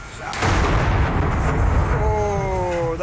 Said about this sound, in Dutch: Die paniek kwam niet zozeer door de brand, maar door de ontploffing daarna van gasflessen op een balkon.